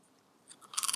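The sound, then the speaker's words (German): Crisp crunching of a potato chip being bitten and chewed: a couple of separate crunches, then a quick run of sharper, louder crunches at the end. “Abgesehen davon, dass wir immer noch Chips haben. Also, ich mm. esse jetzt nochmal eins.”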